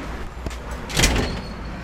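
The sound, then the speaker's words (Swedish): An elevator door slides shut with a single brief, rumbling thud near the middle, over a steady low background hum. “innan hissdörren stängs”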